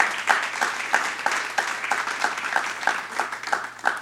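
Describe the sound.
Steady applause from a church audience at Ridgepoint Church welcoming a guest: many hands clapping together for about four seconds, with a few louder swells and no voices.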